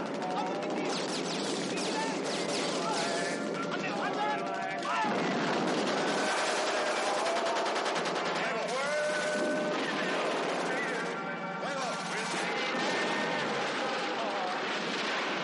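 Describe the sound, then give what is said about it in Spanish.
Gunfire aimed at a locomotive during a tank assault by Shermans in a 1970 war film, heavy booms and rapid bursts packed densely together, loud throughout and mixed with other sounds. “Van arrasando con todo cuanto encuentran, reduciéndolo a miles de escombros. Disparan a la locomotora.”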